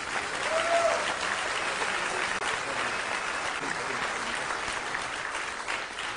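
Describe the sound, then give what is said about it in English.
Audience applause greets a speaker as he is welcomed, a dense, continuous clapping that stays at an even level for over six seconds. “Would you give Brother Derek Stinnett a hand of welcome?”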